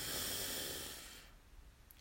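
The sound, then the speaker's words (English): Slow breathing during a guided relaxation exercise: a long, soft, airy breath of hiss fades away after about a second, leaving near silence with faint rustle. “So breathe in and out. We'll do that two more times. Breathe in”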